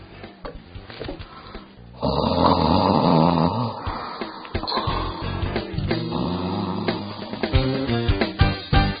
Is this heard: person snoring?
yes